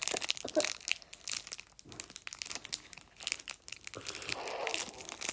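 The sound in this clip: Crinkling and tearing as the wrapper of a chocolate bar is ripped open, the bar inside broken. Many irregular rustles and crackles run for several seconds at a fairly soft level.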